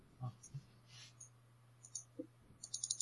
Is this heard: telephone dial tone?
no